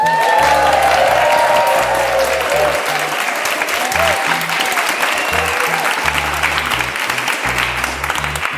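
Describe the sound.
Sustained applause from a live audience at the Mill Valley Public Library on a Friday evening, gathered for a talk on California cuisine. The clapping is dense and loud and holds steady throughout.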